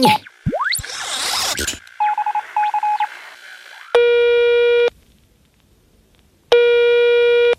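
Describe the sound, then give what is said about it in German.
Telephone dialing tones of a call being placed: brief whooshing electronic chirps, then a quick run of short beeps, followed by two long, loud buzzing tones separated by a quiet pause. “Den rufe ich jetzt einfach mal an mit dem X-Funker”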